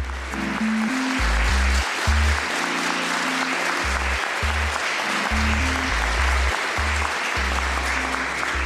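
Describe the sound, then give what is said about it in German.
Loud, sustained applause from a large live audience at a political talk recording fills the whole stretch as a dense, steady roar of clapping with no break. “Man hat es eben auch schon ganz laut und deutlich gehört. Hier sind Menschen, hier sind sehr viele Menschen und darüber freuen wir uns sehr”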